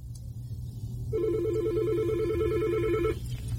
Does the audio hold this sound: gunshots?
no